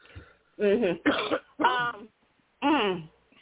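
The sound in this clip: A person clearing their throat in four short, rough voiced bursts, the last coming after a brief pause, fairly quiet and with no other talk.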